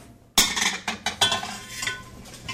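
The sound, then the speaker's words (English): Apples drop into a pot on the stove while apple butter is being started, making a few hard thumps and clattering knocks in quick, uneven succession, then fading into lighter rattles. “In go the apples.”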